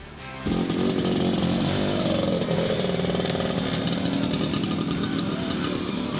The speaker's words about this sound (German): Mit dem Duft sowie dem Sound vieler Zweitaktmotoren wurden die Leute begrüßt.